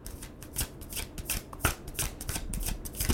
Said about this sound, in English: I've got my tarot deck here with me in the studio, and each show I'm going to pull a card for our listeners.